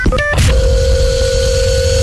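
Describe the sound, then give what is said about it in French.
An answering machine sounds a few quick electronic beeps, then a steady mid-pitched tone that holds to the end over a low hum. “Le répondeur. Non, nous avons des messages.”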